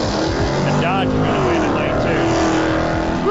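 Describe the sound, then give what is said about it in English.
A Mustang drag racing car's engine roars loudly and without a break as it sits in its lane at a drag strip, with a gritty, rumbling tone. An announcer talks over the noise. “Tristan Tenner pulls up in lane number one in a Mustang.”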